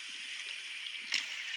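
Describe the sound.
Rowboats racing through the water toward a beach, heard as a steady hiss of rushing, sloshing water with one sharper splash near the end.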